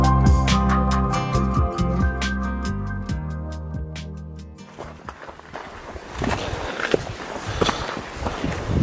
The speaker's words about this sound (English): On Point, the sound of a hiker there on the Appalachian Trail in the White Mountains of New Hampshire